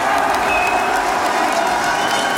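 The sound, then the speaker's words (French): The public in Lens greets a surprise announcement of a 22 May holiday with applause and cheering, during a ceremony for the players. The applause is a loud, unbroken roar of clapping with voices mixed in. “Alors ça, c'est l'annonce surprise de Sylvain Robert, applaudi par tout le public.”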